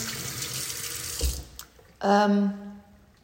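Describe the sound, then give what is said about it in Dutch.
Tap water runs steadily into a sink as hands are washed, a broad hiss that cuts off about halfway through, followed by a short voiced sound. “Ik ga ondertussen even mijn handen wassen.”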